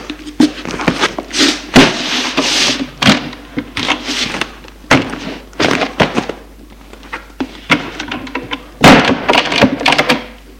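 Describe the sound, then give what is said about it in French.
Wooden knocks and thuds as a schoolbag is closed and put on a cupboard shelf, with many irregular bumps, taps and rustles of varying loudness spread unevenly across the whole stretch. “Referme son cartable. Et va le mettre sur le rayon du placard.”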